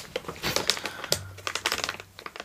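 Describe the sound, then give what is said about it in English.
A cheese crisp snack being crunched, a dense run of sharp, crackly bites and chews, fairly quiet and without talk. “I'm gonna have a cheese crisp.”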